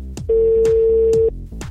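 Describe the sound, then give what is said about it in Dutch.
A telephone call ringing out: one steady, mid-low ringback tone lasting about a second, loud and even, set over faint rhythmic music. “Eens kijken of we hem aan de telefoon kunnen krijgen.”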